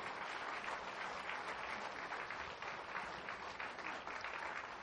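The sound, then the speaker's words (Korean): Applause from a church audience is steady and continuous, a dense even clatter of many hands clapping throughout, with no voices over it. “다시 한번 뜨거운 박수로 축복해 주시기 바랍니다.”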